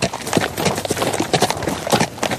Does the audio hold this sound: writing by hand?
no